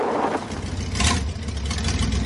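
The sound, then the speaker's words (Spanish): A car engine rumbles low and steady as the car pulls up and stops at a barrier in a 1997 black comedy film. The sound swells briefly near the middle, then settles back to an even hum. “El coche de Paco se para junto a él.”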